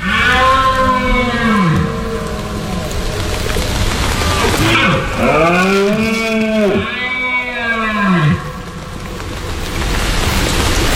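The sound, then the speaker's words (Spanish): Red deer stags bellowing in the autumn rut, a series of loud, deep, drawn-out roars that rise and fall in pitch, clustered in the middle, over a steady hiss of light rain. “habrá empezado a sonar en el monte el sonido de la berrea de los ciervos. Este es el sonido de septiembre hasta bien entrado octubre.”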